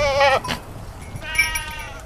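Goats from a herd in Portugal bleat in two drawn-out, wavering calls separated by a short pause, the first one louder, over faint background noise.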